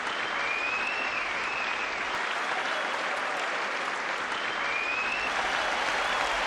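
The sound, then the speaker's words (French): Audience applause after a performer is introduced on stage, a dense, even wash of many hands clapping that stays steady and loud for the whole stretch, with no gaps or voices standing out. “quelles acclamations, quel succès, quelle œuvre!”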